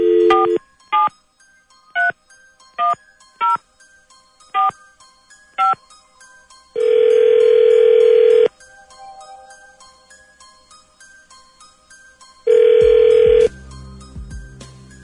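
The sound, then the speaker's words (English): A telephone number is dialed at random: seven short keypad beeps in an uneven rhythm, then two long buzzing ring tones with a quiet gap between them. “Dialing at random.”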